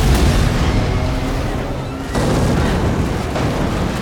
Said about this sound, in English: They take shelter behind an armored vehicle, which immediately explodes.